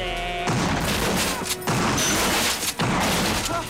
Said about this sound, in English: As the two men run alongside the bus, it explodes in a massive ball of flames, sending them flying through the air.